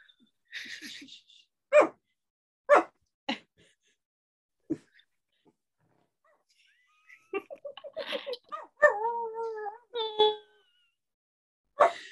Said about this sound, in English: She's been quiet for an hour, and then all of a sudden she's like, oh, time to bark now.